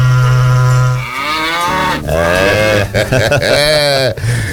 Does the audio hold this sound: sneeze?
no